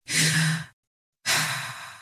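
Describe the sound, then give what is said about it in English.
A deep human breath, heard as two loud, airy, sigh-like breaths separated by a brief silence, the second one fading slowly as it trails off. “Take a deep breath.”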